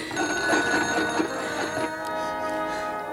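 A telephone bell rings with a bright, rattling metallic trill, fairly loud and alone without talk, as a call is being placed.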